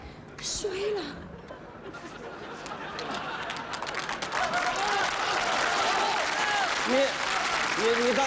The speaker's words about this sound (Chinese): 那孩子们他听得懂吧？ 都鼓了掌了。